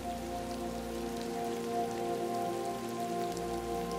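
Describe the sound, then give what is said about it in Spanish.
Rain falls in a steady, continuous patter that holds an even loudness throughout, with a sustained tonal hum running beneath it. “Y te permites relajarte con el hipnótico y agradable sonido de la lluvia.”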